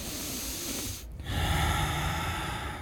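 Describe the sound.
A voice imitates a creature drawing a breath in: a long, rough, breathy inhale that swells louder after a brief pause partway through, with no words spoken.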